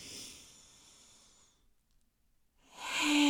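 An airy inhale through the nose during a guided breathing exercise: a soft hissing breath that gradually fades, a near-silent gap, then a louder breath that swells sharply at the end.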